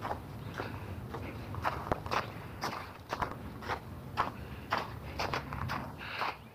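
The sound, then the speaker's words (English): Footsteps crunch steadily across packed, icy snow on an unshoveled residential walk, with many even steps in a regular walking rhythm and no talk over them. “I'm walking on packed snow now.”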